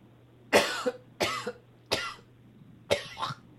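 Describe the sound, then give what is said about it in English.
Coughing after choking on a small piece of carrot: four sharp, separate coughing bursts, several followed by a quicker second hack, alone over a faint low hum. “Holy shit. I choked on a little piece of carrot.”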